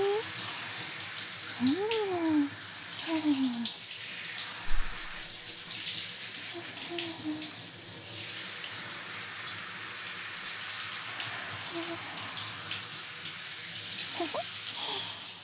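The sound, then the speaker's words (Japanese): Water runs steadily while someone's hair is washed, a continuous broad splashing wash with brief voice sounds early on and a few soft bumps along the way. “他人の髪を洗うのって楽しいのね。”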